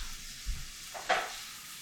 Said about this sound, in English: All right, I'm gonna give that a stir.